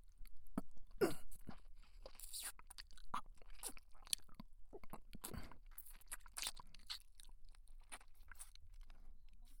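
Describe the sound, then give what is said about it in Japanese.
Close, wet mouth sounds of chewing and biting on an ear: many soft, irregular clicks and crunches at a faint level, with no talk. “耳しゃぶるだけじゃ足りない。噛んでいいか、いいよな。”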